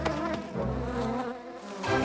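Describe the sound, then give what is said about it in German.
Wasps fly in buzzing over a meadow by a pear tree in a children's bee story, a steady, wavering hum that swells again toward the end, with no talk. “Aber die Wespen haben sie gesehen und kommen angeflogen, um sich die beiden Bienen zu schnappen.”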